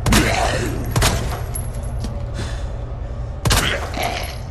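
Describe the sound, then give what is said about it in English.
Pistol shots from the video game Resident Evil 2, fired at close range as headshots on a single zombie: a few sharp, loud cracks spaced unevenly over a steady background rumble. “Here's somebody trying to put down a single zombie with a pistol at close range. All of these are headshots that landed.”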